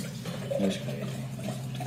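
Red wine poured into a large 500-milliliter jar-style glass mounted on a glass base. A steady, continuous liquid pour runs for about two seconds at an even, moderate level.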